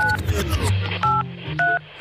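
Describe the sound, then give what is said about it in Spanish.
Telephone keypad tones sound as a number is dialled for a live call: three short two-pitch beeps spaced apart, with talk heard around them. “Estamos llamando en directo a Unai Aguirre”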